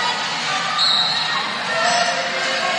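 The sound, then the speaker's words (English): A volleyball is bounced on a gym floor before a serve. The bounces are muffled and sit under a steady wash of crowd noise. “Bouncing the ball. Here's the serve.”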